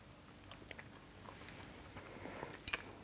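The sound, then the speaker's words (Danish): Faint chewing and biting into a pistachio cake: soft, scattered crunches and mouth sounds, ending with a sharper, brighter bite near the close. No one talks. “Nu ved jeg af erfaring, at folk bliver rasende, når man spiser med lyd på.”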